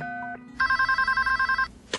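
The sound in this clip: A telephone rings with a rapid, bright electronic trill of evenly spaced pulses, loud and alone, after a quieter steady tone.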